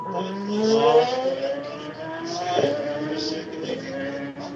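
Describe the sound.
A race car pulls away from the pit after refuelling. Its engine is a loud, buzzing drone whose pitch climbs, breaks off about halfway, then climbs again as it accelerates.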